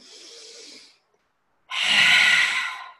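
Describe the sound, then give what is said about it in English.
A deep inhale through the nose during a guided breathing exercise: a soft airy breath, a short silence, then a long, loud, rushing intake of air. “And you could take a deep inhale in your nose when you do that.”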